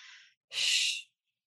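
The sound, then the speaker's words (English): A soft breathy sound, then a hissing shush made on a slow exhale that lasts about half a second, steady and fairly loud before it cuts off into silence. “My kids now know when I'm regulating myself because I do a shushing sound on my exhale”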